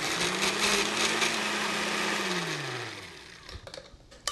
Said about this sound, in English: So we're going to puree.